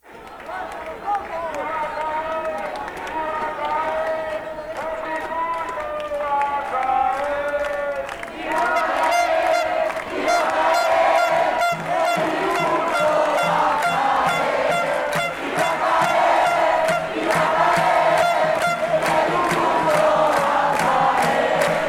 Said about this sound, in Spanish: solamente como un adelanto, esto dura bien poco en realidad, 2 minutos, solo como un adelanto, les voy a pasar un registro de lo que es esto, de una marcha.